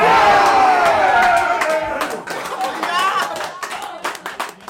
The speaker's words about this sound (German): Das klingt nach richtig, richtig guter Stimmung. Könnte auch eine Fußballkneipe sein.